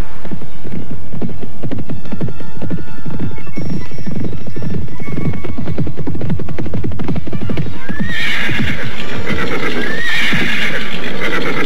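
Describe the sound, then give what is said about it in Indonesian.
Horses galloping, their hooves clip-clopping in a rapid, steady beat as riders travel toward a village at the foot of a mountain. Whinnies rise over the hoofbeats, and a louder bout of neighing comes in the last few seconds. “Hampir setengah hari kita berkuda.”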